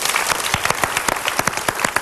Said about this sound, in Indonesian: Tepuk tangan atas pilihan Anda.